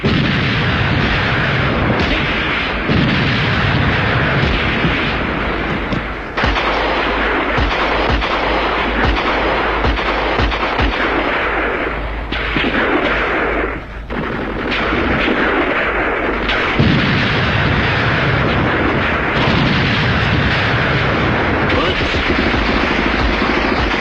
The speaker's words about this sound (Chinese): 炮声震地，杀声冲天